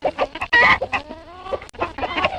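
Village rooster clucking and squawking in a quick series of loud, harmonic calls with short pauses between them.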